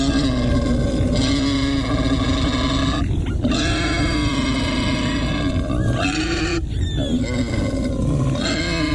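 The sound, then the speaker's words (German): Wild boar grunting in a steady, rough stream of low, throaty snorts and grunts that continue without a break, loud throughout. “das ist ein Wildschwein”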